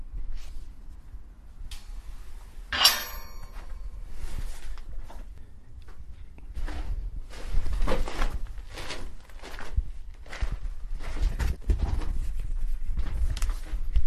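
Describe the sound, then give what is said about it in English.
Footsteps go down a steep set of stairs and through a gate into a small, dimly lit crypt corridor lined with burial vaults. Many uneven thuds and scuffs fall at an irregular pace throughout. “I've just walked down a steep set of stairs, through a gate and into a small, dimly lit corridor.”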